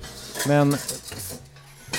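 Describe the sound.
A Le Creuset French casserole pot is handled, giving one brief ringing metallic clank followed by a few softer knocks.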